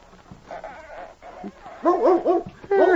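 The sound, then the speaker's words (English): A dog whimpers and yips in a woodshed: a few high, wavering whines, faint at first, then louder in short bursts toward the end. “Hey, that's a dog back here in the woodshed. I wonder what kind of a dog.”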